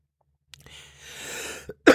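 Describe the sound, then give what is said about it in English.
A person coughs a few times in harsh, breathy bursts with no talk, the coughing rough and sustained in the middle and the loudest burst coming at the very end. “still coughing apparently, clearly”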